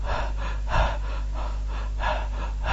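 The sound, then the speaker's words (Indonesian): A voice imitates panting, like someone out of breath from hurrying to a mosque: rhythmic, breathy gasps repeat steadily and alone over a constant low hum. “terganggu kamu karena ini cepet-cepetan datangnya ke masjid, datang terengah-engah”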